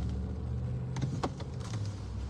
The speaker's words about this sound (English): lots of cars coming at the moment.